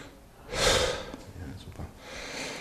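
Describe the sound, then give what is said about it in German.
Deep breathing in and out through the open mouth during a medical check-up. One loud, rushing breath swells and fades, and a softer breath follows later. “Und jetzt mal durch den offenen Mund mal bitte tief ein- und ausatmen.”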